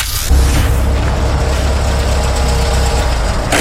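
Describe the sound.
A car engine idles while parking, kicking in after a brief quiet moment and then holding a loud, steady low rumble throughout.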